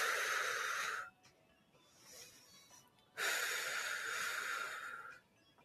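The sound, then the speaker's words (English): Deep breathing during a seated exercise class: two long, loud, airy hissing breaths separated by a softer, quieter breath. Each breath is drawn out and steady. “Deep inhales and exhales.”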